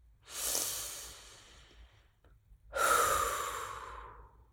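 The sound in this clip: A deep breath, one long airy inhale followed after a short pause by a fuller, slightly louder exhale. Both are soft and breathy with no voices.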